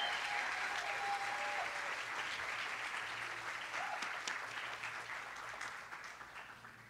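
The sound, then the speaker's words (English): A church audience at a Sunday service applauds a counseling team as it comes to the stage. The clapping is dense and sustained, fairly quiet, and gradually thins and fades toward the end. “Would you welcome, please, our team to the stage right now? Let's hear it for them. Give them a warm Miami Vineyard welcome.”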